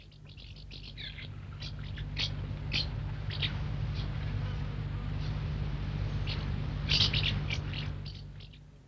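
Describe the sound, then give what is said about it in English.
House martins call at their nest in a cornice between wall and roof: bursts of high, scratchy twittering chirps come in clusters over a steady low hum, with a denser flurry toward the end. “The house martins make a call that's not dissimilar from the swallows, and mostly you hear it when the parents come back to the nest to feed their young.”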